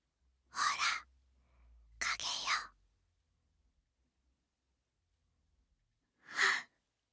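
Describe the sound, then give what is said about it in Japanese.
A person sniffs deeply three times, like taking a big breath: two breathy inhales close together, then a long quiet pause before a third. “そんなに思いっきり深呼吸するみたいに嗅いだんだ”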